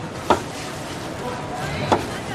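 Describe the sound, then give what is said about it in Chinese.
A knife chopping food, slicing pieces a little too thick, gives two sharp chops spaced well apart over a steady low background. “哎，你这个切有点厚，切有点厚，稍微薄一点。”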